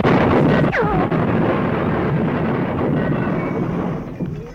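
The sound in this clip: Explosion sound effect in a comedy sketch: a loud, sudden blast that spreads into a broad rumbling roar, holding for several seconds before fading toward the end.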